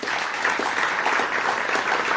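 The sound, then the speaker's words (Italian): At an evening music festival in Montebello, the audience applauds a violinist coming on stage, a steady, full clatter of many hands clapping that holds at an even level throughout. “Riccardo Zamuner al violino, che è una regolare presenza qui a Montebello, un applauso per lui.”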